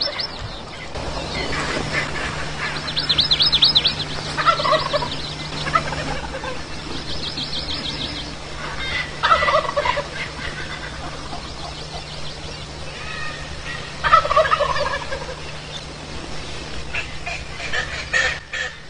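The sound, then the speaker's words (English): Wild turkeys gobble from their roost high on Mauna Kea, Hawaii, at 7,000 to 9,000 feet. Several loud, rattling gobbles burst out at irregular intervals over a faint, steady background drone. “That's the real Grand Turkey.”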